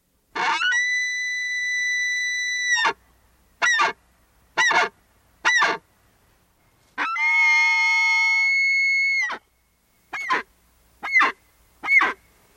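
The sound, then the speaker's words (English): Bull elk bugling during the rut: two long, high, whistling calls, each followed by three short, clipped yelps, fairly faint and heard alone. “That is the call of a bull elk. That is when bull elk mate, they go into rut, and they use this call to announce that they are there.”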